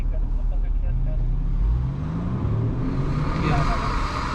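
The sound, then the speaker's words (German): A driving SUV's engine pulls away at full throttle, repeatedly, with young men aboard late at night. There is a heavy, steady low engine roar with a loud surge near the start. Road noise stays constant throughout. “Wiederholt gibt der Fahrer beim Anfahren Vollgas.”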